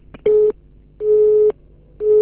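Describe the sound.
A telephone busy signal sounds after a dropped call: three steady, mid-pitched beeps separated by short silences, loud and alone.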